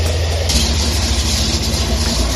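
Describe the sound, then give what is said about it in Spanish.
Heavy rumble of tanks at the border fence between the Gaza Strip and Israel: a loud, continuous low engine drone that holds steady throughout, with no clear breaks or separate impacts. “Este es el sonido de los carros de combate en la valla que separa la Franja de Gaza del territorio israelí.”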